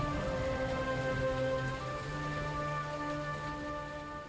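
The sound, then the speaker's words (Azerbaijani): Steady rain falls as a soft, continuous hiss that holds evenly through the whole stretch, with a faint sustained hum underneath. “Yağış.”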